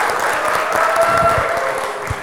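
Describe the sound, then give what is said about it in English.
Audience applause for a volunteer, a continuous, even wash of many hands clapping at a steady level with no clear breaks. “Give Jaden a round of applause.”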